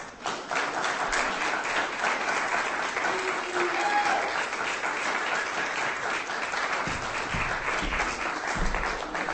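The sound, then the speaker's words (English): Audience applause at a live reading event: dense, steady clapping from many hands that carries on loudly and evenly for the whole stretch, with no voices over it. “ladies and gentlemen, give him a hand.”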